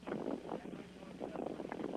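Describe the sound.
An electric fan with a built-in lamp blows air in a continuous, breathy rush that swells and dips softly, like steady wind across a microphone.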